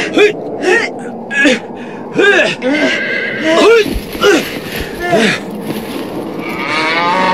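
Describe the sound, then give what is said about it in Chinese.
A young calf moos repeatedly while being tied with a rope around its leg, giving many short, loud, nasal bleating calls in an irregular string. “小牛犊子，你不要动，来，我把绳子拴在你的脚上，不要动”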